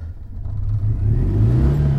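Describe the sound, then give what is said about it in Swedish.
A car engine revving hard at full throttle, a deep, steady rumble that swells louder partway through and holds at a strong, even roar with no voices. “Ja, ska vi ta och starta och åka iväg? Ja, och så lyssnar vi på det underbara ljudet när vi startar. Gasen i botten.”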